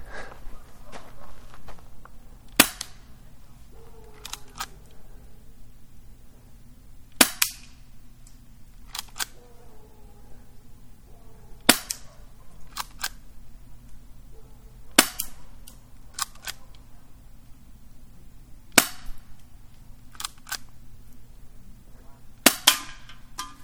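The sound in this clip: An airsoft gun firing 0.2 gram hard plastic BBs, sharp snapping shots spaced several seconds apart, with two in quick succession at the end, over a low steady background hum.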